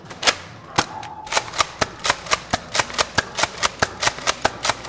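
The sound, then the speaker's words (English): Many sharp clicks from a Rampage foam dart blaster being fired and reloaded, coming in a fast, steady rhythm with crisp, bright snaps. No one speaks. “So my favorite blasters is probably the Rampage, mostly because you can get a lot of shots in and they're fun to use. They sound pretty good, like the reloading, loading the magazines.”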